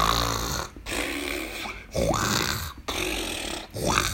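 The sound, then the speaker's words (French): Loud snoring from a captain lying in bed, a rough, rasping breathing noise repeated in a steady rhythm of several snores, each separated by a short pause. “Il ronflait si fort”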